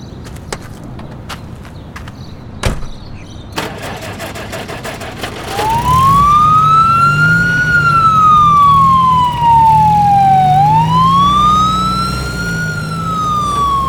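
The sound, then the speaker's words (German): Sirens wail as two police vehicles drive away. A few clicks and knocks come first, then the siren sweeps slowly up and down in pitch over a steady engine rumble. “Wenig später fuhren beide Einsatzwagen davon.”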